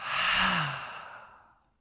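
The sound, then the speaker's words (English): A single long exhale through an open mouth during a guided breathing exercise, a breathy sigh that starts strong, holds briefly, then fades away to silence over about a second and a half. “When you can't breathe in anymore, hold the breath and then inhale a little more. Inhale a little more. Open the mouth and let it all go.”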